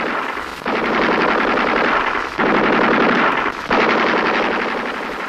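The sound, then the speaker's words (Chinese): An enemy sentry machine gun firing in long sustained bursts of rapid shots, each lasting over a second, separated by brief pauses, loud and harsh throughout. “不，这是敌人值班机枪”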